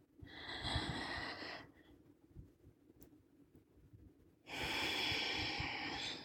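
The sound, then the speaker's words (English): A long, deep drawn breath is followed by about three seconds of near-quiet, then another long rushing breath, steady and fairly loud. “I breathe so deep and I like to hold it. Let's do it one more time,”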